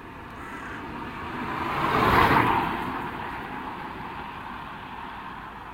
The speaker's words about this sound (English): McDonald's is beginning to fill up with cars. One after the other, after the other.